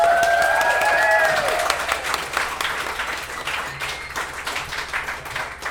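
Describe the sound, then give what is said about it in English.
Applause and cheering from a packed audience welcoming a speaker on stage for a live history storytelling event: dense, sustained clapping with crowd noise, loudest at the start and slowly easing off. “Give him a hand.”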